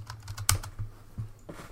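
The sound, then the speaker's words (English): Quiet typing on a computer keyboard: a quick, irregular run of soft key clicks, one sharper tap standing out among them, before the keystrokes trail off. “So do me a favor and type in neutral.”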